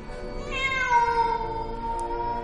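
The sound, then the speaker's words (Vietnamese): A wild cat yowls in the trees with one long, drawn-out, mournful cry. Its strained tone sinks slowly in pitch and sounds alone. “là mấy con mèo rừng làm bố hết hồn”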